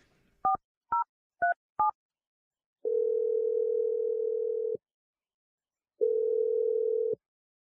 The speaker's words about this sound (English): So here we go. Good luck to us. I'm dialing the number right now.